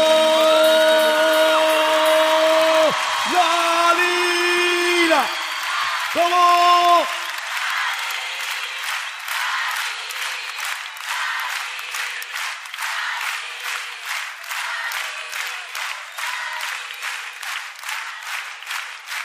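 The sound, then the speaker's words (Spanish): A live concert audience in Buenos Aires applauds after a singer's final sustained notes. Loud, steady clapping then carries on alone for about twelve seconds. “¡Un aplauso!”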